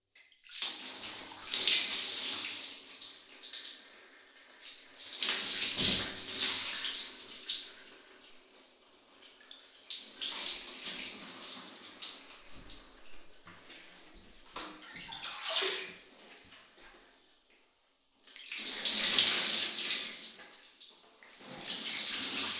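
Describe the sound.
Tap water runs for rinsing during a bath, a hissing, splashing rush that swells and eases in several surges, then briefly drops away before pouring strongly again.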